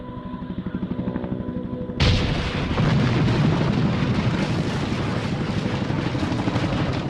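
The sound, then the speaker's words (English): War sounds of explosions and artillery fire: a rhythmic pulsing beat gives way to a sudden, deafening, continuous barrage of booms and rumbling that stays loud to the end. “Fear is the deafening sound of war.”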